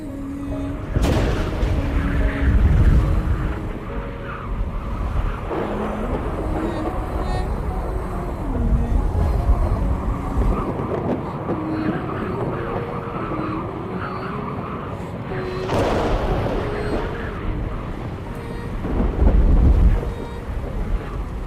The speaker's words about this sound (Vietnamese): Hoa Thiên Cốt ngẩng đầu, hững hờ nhìn mây đen quần quận, sấm chớp rền vang, cuồng phong gào thét.